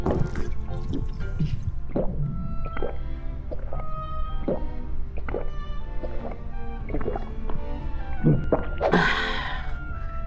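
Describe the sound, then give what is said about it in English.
Wet glugging and dripping as a drink is poured, a string of irregular liquid plops and squishes over a low steady hum, ending in a brighter splashing burst. “How about a drink to wash it down, Of course.”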